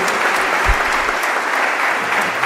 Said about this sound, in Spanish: Un aplauso al carisma de Marta y María, ¿eh?